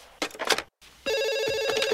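A telephone ringing with a bright, continuous electronic trill that starts about halfway through, after a few short noisy bursts and a brief gap, and keeps sounding to the end.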